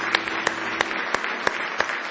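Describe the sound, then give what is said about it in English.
A church audience claps hands in praise: six evenly spaced claps in a steady rhythm over a sustained low background tone. “Give the Lord another hand clap of praise this morning.”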